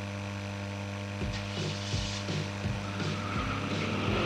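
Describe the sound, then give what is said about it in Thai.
A car engine left running at idle gives a steady, low, humming drone with layered harmonic tones. The sound stays even and continuous throughout, with no voices. “สตาร์ทรถทิ้งไว้ก่อนเดี๋ยวขึ้นไปเอาของบนออฟฟิศแป๊บนึง หยุดเลยสตาร์ทรถทิ้งไว้เปลืองน้ำมันนะ”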